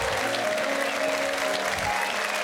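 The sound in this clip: A studio audience at a live talk show applauds to welcome a guest. The clapping is loud and dense and stays even for the whole stretch.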